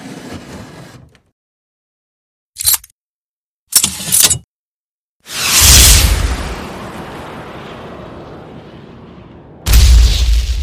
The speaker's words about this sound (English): I just got a new M72 66mm anti-tank law rocket launcher.